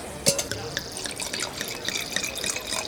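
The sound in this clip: A drink is poured into a glass, making a faint trickling, splashing stream of liquid with scattered small drips and clinks.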